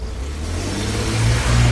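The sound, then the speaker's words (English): A car accelerates down a road with a low, rough engine rumble that swells slightly louder over the short stretch. No voices. “With a sudden jolt of the accelerator pedal, he sped down the road”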